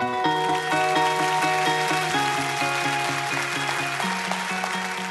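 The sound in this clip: Church audience applauding to welcome a guest speaker: steady clapping from many hands throughout, with music playing a repeated, stepping pattern of sustained notes underneath.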